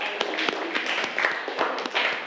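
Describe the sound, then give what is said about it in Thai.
Applause for a group that has just presented decorations made from fabric scraps: a short spell of uneven, scattered clapping from several hands at moderate loudness. “ปรบมือให้กลุ่มนี้ก่อนนะคะเก่งมาก”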